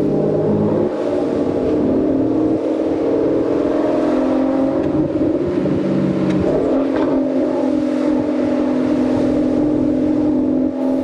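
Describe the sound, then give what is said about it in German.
A vehicle drives through open countryside at about 30 km/h, its engine giving a continuous, loud, low drone with a dense hum that holds steady throughout, shifting slightly in tone partway through. “damit man mal dieses Geräusch auch genießen kann, durch die Natur zu fahren. Wir fahren wohlgemerkt bei der Lautstärke erstmal so 30 Stundenkilometer”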